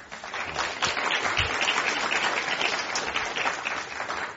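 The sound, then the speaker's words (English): Audience applause welcoming guests onstage at a climate discussion event: a steady wash of clapping from a crowd that holds at an even level for a few seconds before tapering. “Please welcome them to Climate One today.”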